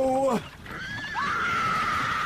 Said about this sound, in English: She stepped out into the path of the pony.